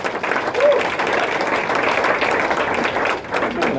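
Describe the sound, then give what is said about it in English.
Steady applause from an audience welcoming performers onstage, a dense, even wash of clapping that holds for the whole clip with crowd voices mixed in. “So everyone, please put your hand together and welcome Gideon and Conway.”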